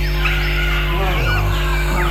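Birds chirp in a park at evening, several thin, sliding whistled calls rising and falling over a steady low hum.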